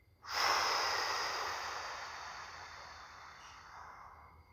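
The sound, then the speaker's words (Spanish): A single long exhale through the nose, done as a guided breathing exercise, begins abruptly as a soft rushing breath. It then fades slowly over about four seconds and is heard alone, quiet and airy. “Repite por la nariz. Exhala.”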